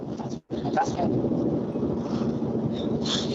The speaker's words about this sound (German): Ihr seid auch gerade unterwegs, oder? Das klingt so. Ich bin mit Auto unterwegs.